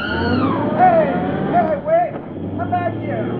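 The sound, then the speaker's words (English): A taxi cab pulls away from the curb on a city street: a steady, loud engine rumble with whining tones that rise and dip. “He's driving off with that woman.”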